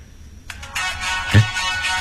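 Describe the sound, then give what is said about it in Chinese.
A telephone ringtone rings in a tense household scene, a steady repeating electronic melody at moderate loudness that keeps going to the end. “谁的电话？”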